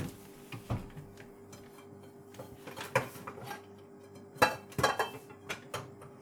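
Metallic clanks and clatter of a frying pan being handled among kitchen pots and dishes, a series of sharp, irregular knocks and scrapes, moderately loud with quieter gaps between them.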